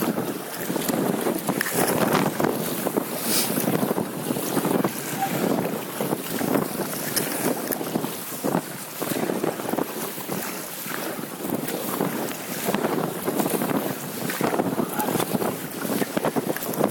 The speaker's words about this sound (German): Jetzt wir ein bisschen hochkämpfen. Ein bisschen warm paddeln.